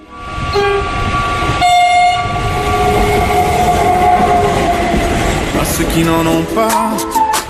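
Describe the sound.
A train running loudly with a sustained, tonal horn sounding over the rumble and rattle of the cars, continuing across the whole stretch with shifting horn tones toward the end.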